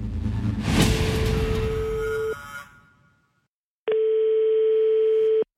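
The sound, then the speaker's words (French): A telephone call tone sounds as an evening call is placed: a steady, low, single-pitched tone under a burst of hiss, then a short silence, then another clean steady tone of about a second and a half. “Elle lui téléphone dans la soirée sous l'œil attentif de Fofana.”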